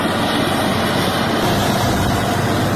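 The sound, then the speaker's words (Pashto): Steady heavy engine drone from loaders repairing the Uruzgan–Kandahar highway, loud and continuous throughout with a broad low rumble and no voices. “دا لوډران د اورزګان او قندهار د لوی لاري په رغولو بوخت دي”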